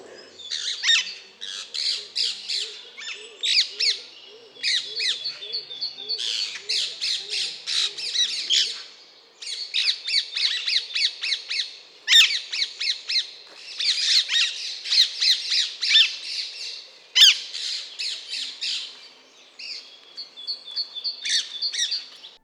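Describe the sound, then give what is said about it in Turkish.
Alexandrine parakeet squawking: loud, harsh, raspy screeches repeated in long bursts with brief pauses, a steady chorus of grating calls with no voices. “Şimdi ise İskender papağanını dinleyelim.”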